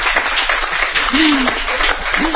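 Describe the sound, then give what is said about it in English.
Audience applause for two honored student athletes: a dense, steady clatter of many hands clapping throughout, with a voice briefly heard over it. “Let's give them a nice round of applause.”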